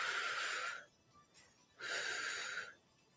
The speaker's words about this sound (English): Exhale and inhale.